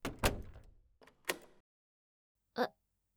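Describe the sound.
A door being opened as a visitor arrives at a home: a few clunks and rattles in quick succession, then a pause and one short, sharp click.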